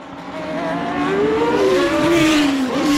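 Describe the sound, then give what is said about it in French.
A Formula 1 race car engine gives a loud, sustained high whine whose pitch climbs and then gradually falls, over a steady roar. “Bon, c'est clair, un pilote de Formule 1”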